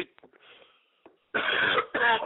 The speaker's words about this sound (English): I don't know what it is. I'm just coughing a lot.